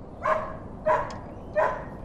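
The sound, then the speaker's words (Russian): A dog barks three times, at an even pace with short gaps between. The barks are of moderate loudness and no voices are heard. “Хороший пес.”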